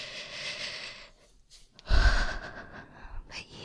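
Shaky, uneven breathing from a woman whose leg is trembling: a few trembling inhales and exhales with a gasping edge, the loudest breath coming midway, then softer unsteady breaths trailing off.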